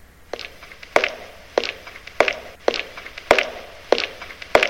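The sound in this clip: Footsteps move through a Japanese forest, a steady series of crisp, crunching steps at an even walking pace, moderately loud and with no voices.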